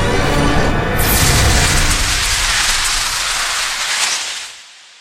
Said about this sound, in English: Fire the superweapon.